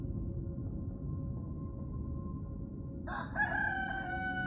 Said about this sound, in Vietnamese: Tiếng gà gái canh tư